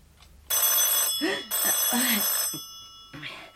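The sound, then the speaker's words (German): A telephone bell rings in long, loud bursts, two full rings and the start of a third, with a voice speaking underneath. “Telefon.”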